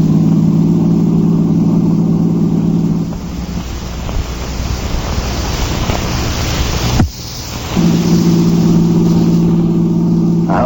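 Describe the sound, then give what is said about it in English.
A car driving fast, its steady engine drone mixed with loud rushing wind and road noise; the engine hum sinks under the roar midway, then returns. No voices. “Now, drive faster. I said faster.”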